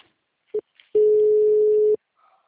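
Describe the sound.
An outgoing telephone call rings through the line: a brief beep, then one long, steady mid-pitched tone lasting about a second, with near silence around it.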